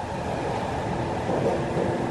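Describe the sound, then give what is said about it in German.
An S-Bahn suburban train rolls along with a steady, fairly quiet low rumble and hum, even and smooth with no distinct clanks or announcements. “Eine Fahrt mit der S-Bahn verläuft gemütlich und leise.”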